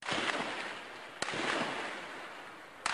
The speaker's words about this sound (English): The sound of Syrian security forces backed by tanks shooting their way into the main square in the city of Hama.